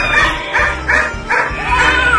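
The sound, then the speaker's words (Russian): A dog barks in a yard, giving a few short, sharp barks spaced close together, each fairly loud with brief gaps between them. “а в моем дворе лаяла собака.”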